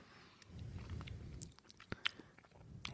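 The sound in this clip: Soft chewing and biting on food while tasting barbecue sauce, a few quiet crunchy bites with brief clicks, faint and without talk.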